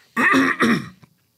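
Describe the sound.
Someone clears their throat in two rough, rasping bursts, followed by a faint short tail, with no other sound around it.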